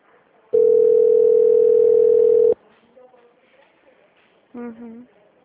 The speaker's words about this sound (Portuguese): Tá chamando? Já desliga ou só quando atender?